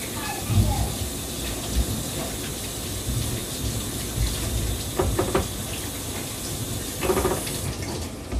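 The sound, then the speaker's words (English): Tap water running steadily into a sink as hands are washed in a kitchen during cooking, a continuous splashing hiss broken by a few brief clinks and knocks. “Always wash your hands.”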